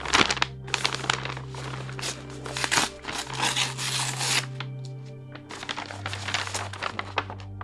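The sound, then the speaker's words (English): Paper crinkling and tearing as a brown envelope is opened, several loud rustling bursts and rips with short pauses, followed by further handling of the paper. “And I've avoided even looking at this envelope, but I guess I have to open it.”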